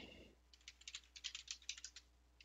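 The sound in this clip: Quick typing on a computer keyboard: many light, crisp key clicks in an uneven, rapid run, faint and heard alone without talk.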